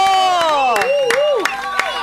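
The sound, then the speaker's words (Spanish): Studio audience applause and cheering to welcome a guest: dense clapping with sharp hand claps breaking through, while shouting voices rise and fall over the crowd noise. “Y la vamos a recibir a ella con un aplauso. Primero la aplaudamos. ¡Bravo! ¡Bravo!”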